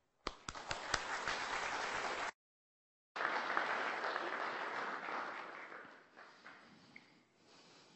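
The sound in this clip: Audience applause welcoming a visiting reverend to preach: dense, steady clapping that cuts off abruptly after about two seconds, then, after a short silence, resumes at full strength and gradually thins and fades out.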